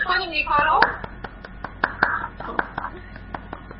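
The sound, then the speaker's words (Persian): Scattered hand claps from a few people follow a child's self-introduction. Talk is heard at the start, then about a dozen separate, uneven claps ring out sparsely. “تشویق کنیم نیکا رو؟”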